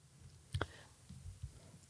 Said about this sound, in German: So, hier gibt es jetzt einen Button, der heißt jetzt anlegen. Da klicken wir einmal drauf und gucken, was passiert.